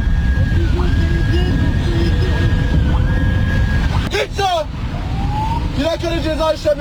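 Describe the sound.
An ambulance siren on an emergency call, stuck in traffic behind a driver who will not yield, wailing up and down in long sweeps over a constant road rumble, then switching to quicker, choppier tones toward the end.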